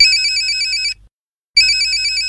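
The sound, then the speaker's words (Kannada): A mobile phone ringtone rings: a bright, high electronic tune plays loudly, breaks off for a brief silence, then starts again. “ಯಾರ್ದಪ್ಪ phone?”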